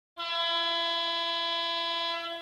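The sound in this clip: A horn signal marking the start of a tournament's first day: one loud, sustained blast with a rich, steady tone and no change in pitch, held for over two seconds with nothing else heard.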